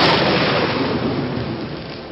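A thunder and lightning storm with heavy rain gives a loud, continuous rumbling roar that stays dense and steady throughout, with no distinct separate claps.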